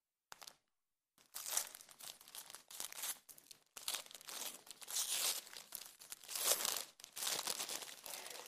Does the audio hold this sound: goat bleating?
no